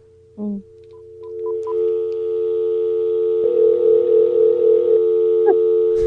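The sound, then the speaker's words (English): Telephone dial tone played from a soundboard: a few brief electronic blips and beeps at the start, then a loud, steady, unbroken tone that holds to the end, with a rougher hissing patch partway through. “I do need to add a dial tone to my soundboard, though, for when that happens.”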